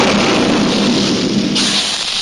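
A cartoon explosion sound effect: a loud, dense rumbling roar that holds steady for about two seconds, with no talk over it.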